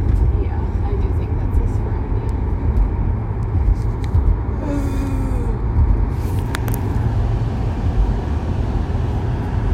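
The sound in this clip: A manual-transmission car being driven, heard as a steady, low engine and road drone that holds evenly throughout, with faint brief noises over it.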